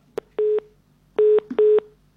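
Telephone line tone after the caller hung up: a sharp click, then three short, flat, buzzy beeps, the first alone and the last two close together.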